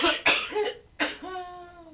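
A few harsh, loud human coughs in quick succession, each a sharp burst, followed by a brief throaty voiced tail.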